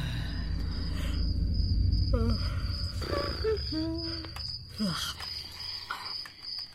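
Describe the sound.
Continuous high-pitched cricket chirping runs steadily through the whole clip over low rumbling noise, with a few brief voiced sounds partway through.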